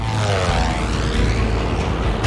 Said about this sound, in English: We're in a nosedive. The plane's totally out of control.